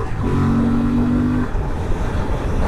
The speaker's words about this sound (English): Oh, the bike just feels lovely leaning into a turn. Accelerate away.